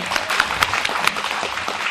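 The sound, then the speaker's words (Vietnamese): Applause from listeners at a Buddhist Medicine Buddha ceremony gathering, an irregular patter of hand claps with a few sharper peaks standing out, fairly soft and continuous. “thầy nói bây giờ phải kính trọng với ổng, vỗ tặng ở đây nữa.”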